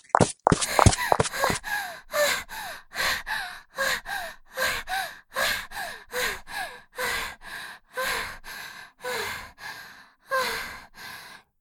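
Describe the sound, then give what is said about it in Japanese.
Heavy, out-of-breath panting after running away, many short gasping breaths in a steady, even rhythm, loud and breathy with no words between them. “ここまで来ればもう大丈夫かな。ちょっと息落ち着くまで待って。”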